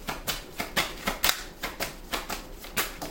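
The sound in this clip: Tarot cards being shuffled and drawn during a card reading: a rapid, steady run of crisp papery riffles repeating about every quarter second, even in loudness, with no talk.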